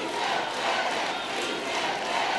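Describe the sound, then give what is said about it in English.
A crowd shouting down a heckler who interrupted a presidential speech, a faint, even roar of many voices blending into a steady mass of noise. “At one point during the speech, a young man stood up and started yelling to the president that his action didn't go far enough. The crowd shouted him down.”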